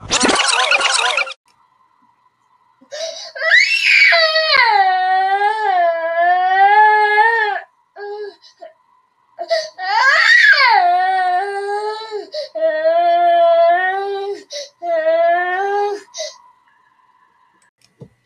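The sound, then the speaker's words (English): A baby cries and screams in a temper tantrum: loud, strained wails that waver in pitch, coming in several long bursts with short pauses between. A brief burst of noise comes first. “that is the sound of my baby having a temper tantrum.”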